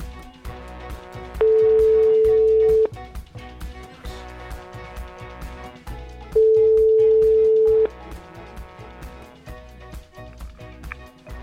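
Telephone ringback tone while calling a renowned anthropologist professor: two long, steady beeps, each lasting over a second and spaced several seconds apart, over a rhythmic musical backing.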